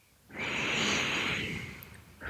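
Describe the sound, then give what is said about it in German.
A slow, deep breath during a guided meditation for releasing anxiety: one long, steady, airy rush of air, fairly loud and with no talk, with another breath just beginning at the end. “Atme tief ein”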